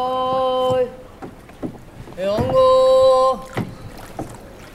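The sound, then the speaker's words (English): A boat glides through narrow city canals away from the tourist centres, with soft water and hull noise throughout and a voice calling out in two long, sustained sung notes. “We moved away from the tourist centers of the city and into these smaller canals.”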